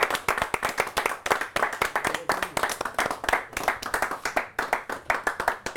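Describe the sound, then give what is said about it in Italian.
Sustained applause from an audience giving a standing ovation to Iran's football players: many quick, dense claps in an even rhythm that stays loud from start to end. “facciamo una standing ovation, non l'abbiamo mai fatta, ai giocatori dell'Iran, Bravi. alziamoci.”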